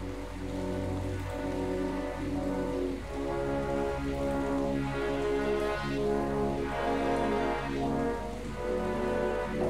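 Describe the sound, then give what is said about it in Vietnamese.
Steady rain falls in a continuous, even hiss that holds at the same level from start to finish, with no voices. “Hôm nay trời mưa đó. Trời mưa nên là nó hơi lát.”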